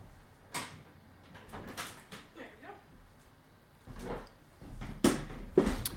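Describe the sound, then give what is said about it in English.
Soft thumps and rattles come from a door being shut in a 200-year-old house where wind keeps blowing it open. A few quiet, irregular knocks and clunks sound over a faint background. “After I close the door, because it keeps getting blown open by the wind, you know, because this house is 200 years old.”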